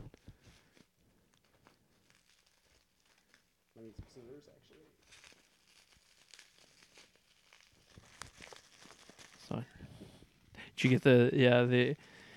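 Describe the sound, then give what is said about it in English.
Faint rustling and crinkling as a package wrapped in bubble wrap is opened, coming in scattered soft bursts, with people talking briefly near the start and again louder at the end. “This one's wrapped in bubble wrap. Is it more bubble wrap? More bubble wrap. So I'm going to have to put the mic down for this.”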